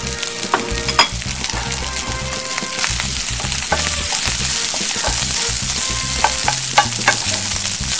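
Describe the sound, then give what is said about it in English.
Rice sizzles as it fries in oil in a hot pan during a cooking segment. A steady, dense crackle runs throughout, with frequent sharp clicks and scrapes from stirring. “Now I'm going to add my rice.”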